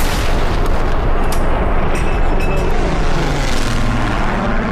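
Ceremonial artillery gun salute marking the death of Queen Elizabeth, a loud, deep boom spreading into a sustained heavy rumble that fills the whole stretch without a pause.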